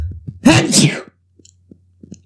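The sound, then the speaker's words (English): A single loud, sharp sneeze bursts out with a brief intake before it, then only faint, scattered small noises remain in near quiet. “I sneezed a lot at work. That was just an accurate representation.”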